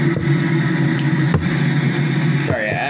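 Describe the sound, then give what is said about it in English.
Car engine drone heard while driving, a continuous low hum with a steady mid-pitched whine, holding even and fairly loud with a slight shift in tone near the end. “I'm driving as well while I'm speaking to y'all.”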